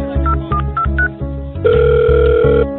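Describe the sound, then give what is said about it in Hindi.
A telephone call is placed: four short keypad beeps, then a sustained ringing tone, all over a pulsing rhythmic beat. “कौन है रे लगाओ ओकरा के phone”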